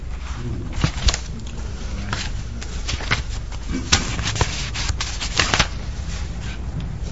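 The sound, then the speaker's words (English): Stickers being torn off, heard as a run of short, dry rasping and peeling bursts at an uneven rhythm over a faint steady background hum. “Well, these stickers have lost all function. I'm just tearing them off now.”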